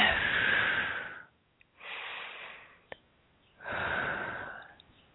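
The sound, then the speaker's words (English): Deep breathing, in through the nose and out through the mouth: three long, loud, airy breaths separated by short pauses. “couple more deep breaths here in through the nose and out through the mouth.”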